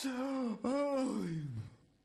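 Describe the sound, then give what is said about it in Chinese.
A storyteller's voice imitates a drawn-out yawn: a moaning, voiced tone that breaks off briefly, then resumes and slides downward in pitch as it fades out alone. “一个哈欠”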